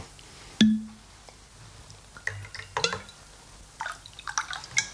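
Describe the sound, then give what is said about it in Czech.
Whisky being poured into a glass: a single bright clink rings out first, followed by faint trickles and small splashes of liquid. “Já vám naliju whisky, ano? Ale jenom trošinku, prosím.”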